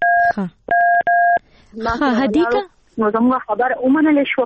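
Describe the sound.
Telephone number dialing with DTMF tones: three crisp, steady two-note keypad beeps, the last two close together, followed by a person talking.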